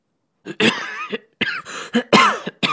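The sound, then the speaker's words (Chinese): A burst of several harsh, hard coughs in quick succession, loud and throaty, with short gaps between the hacking bursts. “我猛咳了几声。”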